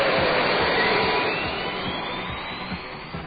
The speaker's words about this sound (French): Actarus, sas ouvert. Tu peux décoller. Goldorak. Go!